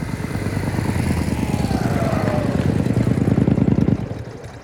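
A vehicle engine accelerates, its rapid throbbing pulses swelling steadily louder for about four seconds before dropping away abruptly at the end.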